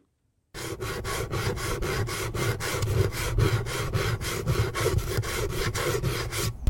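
A kitchen grater is rubbed in a quick, steady rhythm of many rasping strokes, loud and even from start to finish, with no voices.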